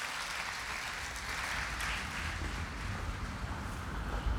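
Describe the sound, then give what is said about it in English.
Wind blows outdoors against a microphone, making a steady, dense roar of rushing noise with a heavy low rumble and gusty fluctuations throughout, with no talking. “All right, I've tried to get away from the wind.”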